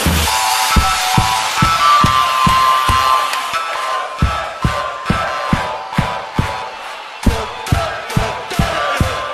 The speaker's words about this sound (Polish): Absolutnie cały protektor, wszystkie ręce w górę i klaszczemy!